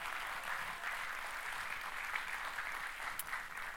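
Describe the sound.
An audience applauds after a baptism with a soft, steady patter of clapping. It keeps an even level throughout, fairly faint and without voices over it.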